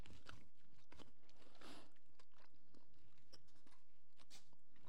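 Sour gummy worms being chewed: many faint, irregular wet smacks and soft clicks from the mouth in an uneven rhythm, with no talking.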